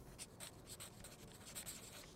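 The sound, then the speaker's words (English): Pen scratching on paper as a phone number is quickly written down, a faint run of short, rapid strokes with no voices. “Here, write it down quickly.”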